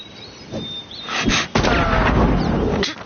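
Gunshots fired at a moving wooden target board: a few sharp, loud bangs that break up a low background, with the heaviest blast near the middle and another crack at the end.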